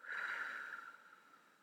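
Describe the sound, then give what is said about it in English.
A deep breath during a slow breathing exercise: one long, soft, airy breath that swells quickly and then fades gradually, heard alone. “Let's try that again. Inhale and exhale.”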